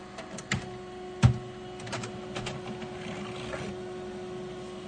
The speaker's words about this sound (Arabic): هذه الطابعة اشتغلت وهتطبع لنا المستند الآن